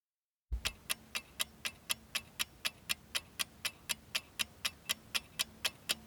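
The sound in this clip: A clock ticks as a quiz countdown timer, with many sharp, evenly spaced ticks at a brisk, steady rhythm. The ticking is fairly quiet and heard alone, with no voices.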